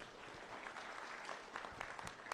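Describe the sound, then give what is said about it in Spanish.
Faint applause from an audience welcoming a regional governor at an official event in Puno, an even patter of many hands with a few sharper claps near the end. “Voy a invitar en esta oportunidad y recibámosle con fuertes palmas a nuestra primera autoridad regional de Puno.”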